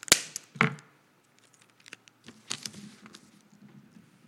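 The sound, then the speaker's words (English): Sellotape is stuck onto a paper envelope, starting with two sharp snapping pulls of tape and followed by softer, scattered crackles and rustles of tape and paper. “I have got here an envelope and some sellotape. And what I'm going to do is I'm going to stick this sellotape on the envelope.”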